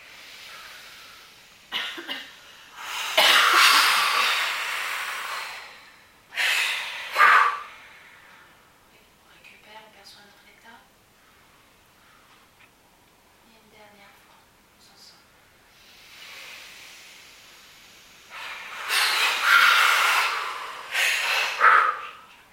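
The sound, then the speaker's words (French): Deep breathing during a guided relaxation breathing exercise: a few long, noisy breaths in loud surges, separated by quieter stretches, with one pair of breaths early and another pair near the end. “Voilà, une deuxième fois, on inspire.”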